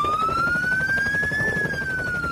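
A police car siren wails continuously as one slow, loud tone that climbs gradually, then eases back down near the end, with no talk over it.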